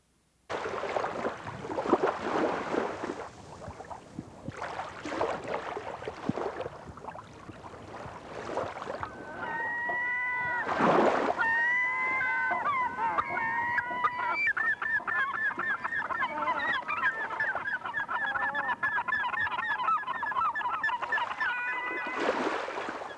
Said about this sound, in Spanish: escucharemos el rumor del mar de Providencia y de algunas gaviotas que se deslizan sobre el agua.